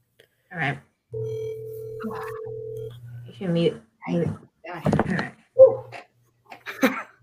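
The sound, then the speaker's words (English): An outgoing telephone call returning an earlier call, with one steady two-pitch ringback tone lasting about two seconds. People talk briefly before and after it. “Somebody called me earlier, so I'm going to call them back, see if they pick up.”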